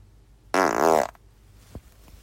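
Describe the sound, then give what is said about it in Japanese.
A fart let out while at work: one buzzy, rasping burst lasting about half a second, fairly loud against near-quiet, then silence. “ちょっとおならが出そうなので出します。”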